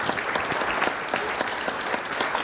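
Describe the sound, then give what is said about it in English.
A church audience gives a morning round of applause in honor of mothers: continuous, evenly textured clapping with many crisp individual claps, moderately quiet and steady throughout. “Let's give our mothers one more round of applause this morning.”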